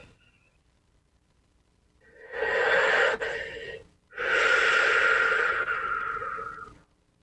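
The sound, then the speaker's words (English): Deep breath drawn into the chest during a guided meditation: two long, loud, breathy rushes of air separated by a brief pause, with no talk over them. “Deep breath into the chest.”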